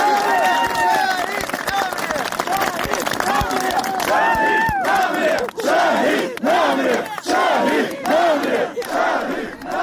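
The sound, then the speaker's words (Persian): A large crowd chants a protest slogan about martyrs in loud unison at a gathering for people killed in recent protests, rhythmic shouted phrases repeating over dense crowd noise. “شهید نمرده شهید زنده است شعاری هستش که این روزها خیلی میشنویم، به خصوص در جاهایی که جانباختگان کشته شدن در دو روز گذشته.”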